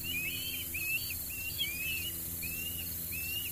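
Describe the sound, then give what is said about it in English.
A family of ospreys nesting on an iron watchtower beside a lighthouse on a Chesapeake Bay island gives a series of thin, high whistled chirps. The calls come in short, spaced bursts over a low, steady hum. “a family of osprey had taken over an iron watchtower beside the lighthouse, building a nest. I captured their calls with my shotgun microphone.”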